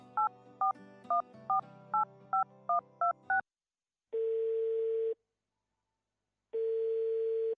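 Telephone keypad tones as a call is dialed: a rapid run of short beeps of shifting pitch, then two long, steady ringing tones separated by silence.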